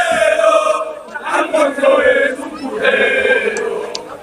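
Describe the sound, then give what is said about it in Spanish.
Mallorca football fans chant in the stands, a loud sung chant from many voices in two sustained phrases separated by a brief dip. “Es el tercer descenso del Mallorca con la propiedad americana. Es decir, esto no es casualidad. Y esto es lo que canta la gente.”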